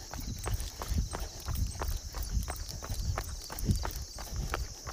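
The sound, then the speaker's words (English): Footsteps of someone walking up a short hill while out walking the dog: many steady, evenly spaced soft footfalls in a regular rhythm, moderately quiet throughout. “All right, 2 more steps. And we'll walk this short little hill here.”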